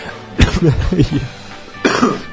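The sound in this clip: A couple of short, harsh coughs with speech in between, the coughs standing out as sharp bursts from the talking.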